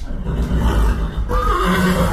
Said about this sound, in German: beim Ehepaar Katrin und Stefan Blini rund 40 Zuchtpferde im Stall